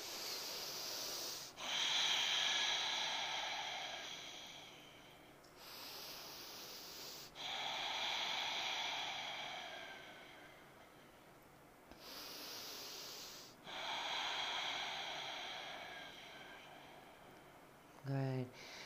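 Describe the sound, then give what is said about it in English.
Slow, deep breathing during a yoga standing pose: several long, soft, airy breaths in a steady rhythm, each separated by a brief quiet pause. “And exhale, Tadasana, hands at your side. Three breaths.”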